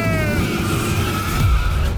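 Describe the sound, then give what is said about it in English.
A race car's engine roars steadily, joined by a squeal of skidding tires, evoking a NASCAR start; the whine holds loud and constant for about two seconds with a brief low swoop near the end. “Start your engine!”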